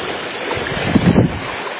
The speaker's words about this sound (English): The fifth bridge, which the water is still flashing over.